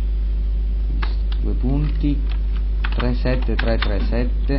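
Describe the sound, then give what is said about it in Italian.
Clicks of a computer keyboard being typed on by someone holding a microphone in one hand, with quick irregular keystrokes running under a steady man's voice and a constant low hum. “Sto tenendo con una mano il microfono mentre scrivo.”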